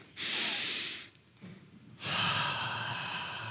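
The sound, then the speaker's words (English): A deliberate deep breath drawn in during a guided calming exercise: two long, steady rushes of airy breath, each lasting about a second, separated by a short quieter pause. “let's just take a deep breath in.”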